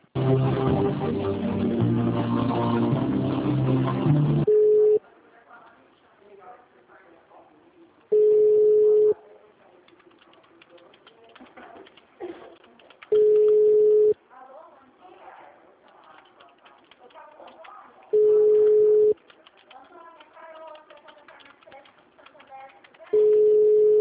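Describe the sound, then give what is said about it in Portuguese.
Ringback tones sound as a phone call to a Brazilian city hall is transferred: after a stretch of hold music, steady mid-pitched beeps about one second long repeat at regular intervals, separated by quiet pauses. “Demais setores, departamentos ou aguarde para ser atendido. Transferindo ligação.”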